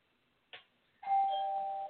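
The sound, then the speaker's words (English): A home doorbell chimes: one short note, then a longer sustained ringing tone, fairly quiet and with no voices. “my sister that's ringing the doorbell”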